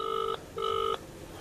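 Telephone keypad tones as a number is dialled: two clear electronic beeps of equal pitch, each about a third of a second long, separated by a short gap.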